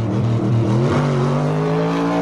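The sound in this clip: Car engine revving as a blue car, one of the best models, pulls away: a loud, steady drone whose pitch climbs gradually throughout.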